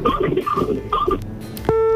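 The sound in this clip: An incoming telephone call on a radio phone-in registers as a sudden steady electronic tone near the end, following a stretch of voices with music-like patterns.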